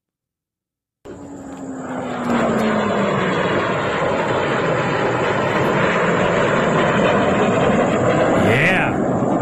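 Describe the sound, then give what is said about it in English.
A joint strike fighter jet flying back from a bombing mission. After a second of silence, the engine roar swells in, then holds as a broad, loud, steady rumble. One short spoken word breaks in briefly. “It's a joint strike fighter on its way back from Tehran after delivering a huge payload.”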